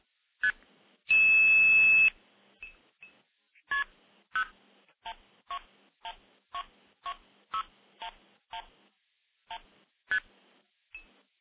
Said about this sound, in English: So let me initiate the stack by dialing into a switch up in Minnesota. We'll do that right now.